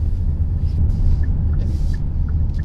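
Steady low engine and road rumble from a car being driven through Edinburgh toward North Edinburgh Arts, a continuous deep drone with faint higher ticks and hiss above it.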